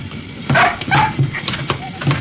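A dog squeezing through a doorway with a man boarding an aircraft gives several short, mid-pitched yips and whimpers over steady background noise.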